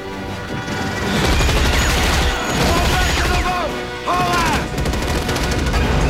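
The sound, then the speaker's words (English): Sustained rapid gunfire in a sci-fi audio drama battle, with rounds fired as cover for troopers boarding a ship while bugs attack; a dense, continuous barrage with shrill sliding tones over it. “Bugs keep coming over the wall as Xander leaps out of the vessel and takes over firing off rounds to give cover for the troopers to board the ship.”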